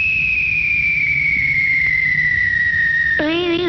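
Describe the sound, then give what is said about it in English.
A radio contest signal tone: a steady, high electronic whistle glides slightly downward for about three seconds, then abruptly changes into a warbling, wavering tone with lower layered pitches. “Sometime in this hour you'll hear the kissing tone. It sounds like this.”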